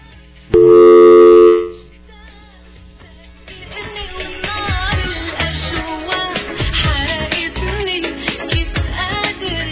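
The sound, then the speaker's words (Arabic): A telephone tone from a disconnected call rings out as one loud, steady, harmonic beep lasting about a second, then gives way to a busier, continuous background. “اتصال مقطوع.”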